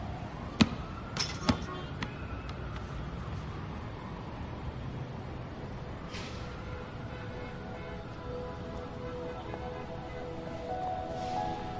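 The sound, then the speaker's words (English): A basketball bounces with a few sharp thumps in the opening seconds, then gives way to a steady low background hum with no further clear impacts. “I don't want you out here shooting this ball around all day and night, all right?”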